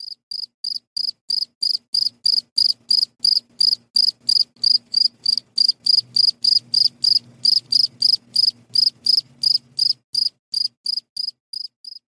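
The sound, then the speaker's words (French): A male cricket chirps by rubbing its two tegmina together, producing many short, bright, high-pitched pulses in a steady, even rhythm that keeps going without a break, with only a faint low murmur underneath. “Donc vous aurez reconnu probablement le son des grillons. Et le son des grillons, en fait, il est réalisé grâce aux deux tegmen du grillon qu'il va frotter l'un contre l'autre”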